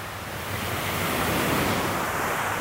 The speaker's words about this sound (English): Greetings from the ocean. So if the audio sounds a little bit different today, that's because I'm standing on the beach.